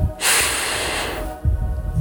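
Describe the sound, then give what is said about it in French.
A deep breath drawn in: a loud, airy rush of inhaled air lasting about a second, then a brief pause and softer, rougher breath noise. “Prends une inspiration profonde,”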